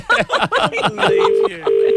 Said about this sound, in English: So we call back. You got to call back.